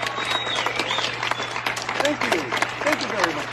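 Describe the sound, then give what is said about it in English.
Audience clapping comes in irregular, uneven bursts, mixed with a person talking over it throughout. “People keep clapping.”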